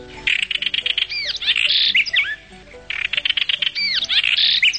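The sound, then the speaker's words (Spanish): A house wren calls with loud, rapid chattering trills and sweeping high whistled notes, delivered in two energetic phrases separated by a brief pause. “el simpático charcán se presenta en las casas y jardines, detectando la presencia de insectos en cuidadosa búsqueda bajo los matorrales, los rincones sombríos, las vigas y agujeros de las construcciones.”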